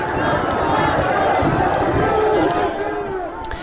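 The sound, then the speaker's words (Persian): A crowd of protesters fills the streets of Zahedan with a dense, steady roar of many voices and shouts that eases slightly near the end. “این صدای مردم زاهدان هست در خیابان‌های این شهر که تظاهرات کردن، دست به اعتراض زدن.”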